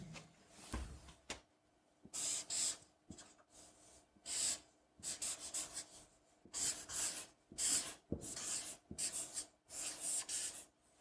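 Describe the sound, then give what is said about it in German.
A marker pen draws on a whiteboard: many short, squeaky scratching strokes in irregular bursts with brief pauses between them, fairly quiet and heard alone. “Und diese zwei Punkte, die werde ich einmal mit dem Stift hier an das Whiteboard malen”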